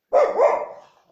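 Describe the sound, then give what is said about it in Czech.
A dog barks, a guard dog reacting to a disturbance: one loud, drawn-out bark with a wavering, slightly rising-and-falling tone that trails off, heard alone without talk. “No jo, on mi tady štěká teda.”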